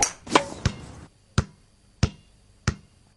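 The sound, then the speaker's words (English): A basketball bounces on a hard surface in six sharp, punchy thuds. The first three come in quick succession, then three more land in a slower, even rhythm with quiet gaps between them. “Basketball. Okay. Basketball. Are you sure? Soccer, something bouncing. Okay, basketball, you were right.”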